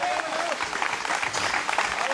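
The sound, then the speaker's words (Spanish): Applause from an audience during a church sermon: a dense, steady clatter of many hands lasting the whole stretch, fairly quiet, with a voice faintly audible over it. “Dale un aplauso al Señor si comprendió esto.”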